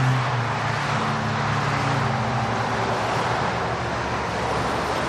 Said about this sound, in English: That noise is the steady drone of traffic as one of the busiest roads in Europe cuts its way through the Surrey countryside.